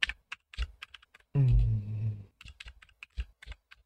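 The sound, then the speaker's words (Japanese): Typing on a mechanical keyboard with red switches, struck slowly and hard: many crisp, clacky keystrokes in an uneven rhythm, with a short pause partway through. “もうキーを打つのがね、遅いんでね。 いや、なんかすんごい力でキーを押してるのかなって思うほどの音なんですけど。 一応、あれだよ、赤軸だよ。”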